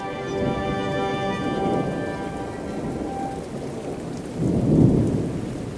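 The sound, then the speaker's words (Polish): A thunderstorm with steady, dense rain hissing throughout, and a deep rumble of thunder swelling toward the end. “Przez otwarte okna wpadały podmuchy burzy.”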